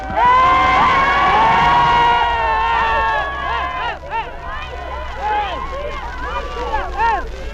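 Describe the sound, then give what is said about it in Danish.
Crowd shouting and jeering as a suspected informer is led into a police station at Maglegårdsskolen, Copenhagen, in May 1945. Many loud, overlapping voices yell without pause, with sharp rising and falling cries throughout. “Nu skal de høre, hvordan det lyder, når en stikker bliver ført til en af politistationerne.”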